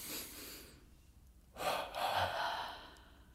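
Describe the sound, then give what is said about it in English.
Deep breathing exercise: a soft, airy inhale is followed after a pause by a double exhale, two loud breathy pushes in quick succession, with no talking. “Let's do it again. Another breath.”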